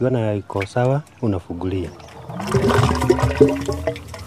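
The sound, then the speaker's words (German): A liquid mixture drains into a biogas plant, a large white bag, after a plug is pulled. A brief stretch of talk comes first, then a steady, loud, rushing gush of liquid. “Dann ziehe ich den Stopfen und lasse die Mischung in die Anlage laufen.”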